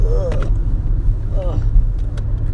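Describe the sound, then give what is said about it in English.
A car driving on the road gives a steady low engine and road rumble that runs throughout, with a voice talking over it. “I'm driving on the road, sorry.”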